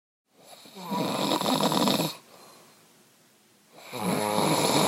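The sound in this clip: A man snores at night: two long, loud, rasping snores, each lasting about two seconds, separated by a quieter breathy exhale.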